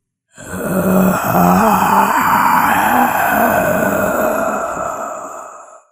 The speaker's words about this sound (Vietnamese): Khi chúng tôi định tháo chạy thì nghe thấy cậu ta rên ư ử một tiếng.